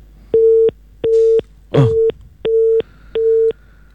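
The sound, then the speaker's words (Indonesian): Busy tone after a dropped phone call: five evenly spaced, steady electronic beeps on one pitch, with a brief crackle of noise between the second and third. “Ya, nampaknya kami terputus dengan Pak Setio. Kami akan coba menghubungi kembali.”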